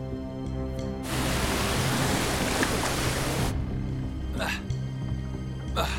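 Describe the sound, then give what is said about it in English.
Water rushes over rocks around a woman's legs beside a boat, a loud broad hiss that swells for a couple of seconds and then drops back, with people talking over it. “Valentina holds the rock as the water flows over her legs.”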